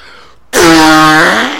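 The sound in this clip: A fart sound: one loud, buzzy, drawn-out blast that starts abruptly and holds a steady tone for about a second before easing off. No voices.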